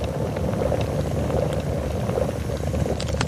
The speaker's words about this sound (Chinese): 再沿着锅边注入开水没过羊肉，文火焖煮30分钟，